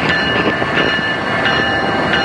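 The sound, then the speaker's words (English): An Amtrak train stands still outdoors in daytime with a steady, loud rumbling drone and a constant high tonal hum running through it, with no talk. “So the train has lights on, even though it's during the day, and I don't think that's very necessary because we're standing in the hot sun, but it's like yellow and it has the Amtrak symbol on it”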